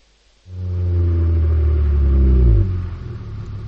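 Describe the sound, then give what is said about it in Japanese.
A bus pulls up and stops, its engine starting as a deep, loud rumble that holds steady for about two seconds and then drops to a quieter hum. “しばらくしてバスが止まった。”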